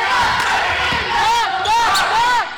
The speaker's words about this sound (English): Then the 23 is taking the drive, takes up his dribble.